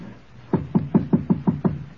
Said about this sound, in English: And then... knock.